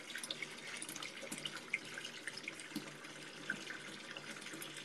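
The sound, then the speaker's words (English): Tap water runs into a bathtub as it fills, a faint steady hiss with scattered small drips and splashes throughout. “Wait, maybe the water running is too loud.”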